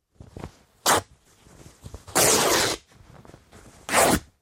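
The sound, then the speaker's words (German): Coat fabric being torn apart in a few sharp ripping bursts, the longest and loudest in the middle, with fainter rustling between them. “ich nun den Mantelstoff zerreiße”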